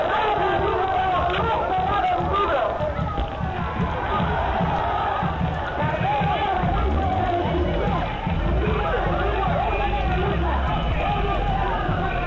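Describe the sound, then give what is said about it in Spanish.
Angry neighbours in a crowd calling on people to join a march: a dense, loud roar of many voices shouting and cheering, sustained without a break for twelve seconds. “las voces de los vecinos enardecidos pidiendo que se unan a”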